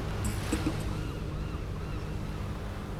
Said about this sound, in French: Prochain arrêt, l'île de la Balanguera. La mer est calme, la température extérieure est idéale. Préparez-vous à accoster.